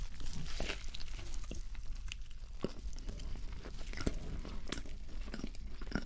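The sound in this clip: Someone eats a Burger King burger meal with loud, close chewing, crunchy bites and occasional crinkling of wrappers. The mouth sounds come in an irregular, continuous stream with sharp crunches standing out, and there is no talk.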